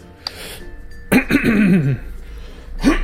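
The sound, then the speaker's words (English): Throat clearing done as a comedic bit before a joke: one drawn-out, voiced rasp with wavering pitch, followed shortly by the start of another short vocal sound. “Clearing throat for comedy.”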